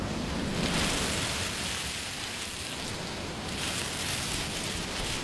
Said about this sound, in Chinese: 把海螺放在耳边，就能听到大海的声音。你听，